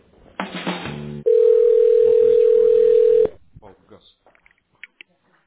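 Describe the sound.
A telephone line tone sounds while a call is transferred: one steady, unbroken mid-pitched tone lasts about two seconds, preceded by a brief harmonic burst and followed by scattered soft clicks on the line.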